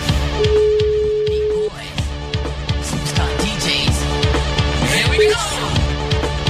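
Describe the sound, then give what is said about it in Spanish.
Ringing tone of an outgoing telephone call: a steady single-pitch tone lasting over a second, then a brief second tone later, over continuous rhythmic background sound. “Ya voy llamando a Frank, que ya debe estar en parrilla de salida.”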